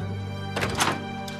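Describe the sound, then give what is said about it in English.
A door closes with a dull thunk, a second soft impact following right after, then a faint, brief click. “Spencer pauses to let Jen out first, then closes the door with one last look to Holbrook.”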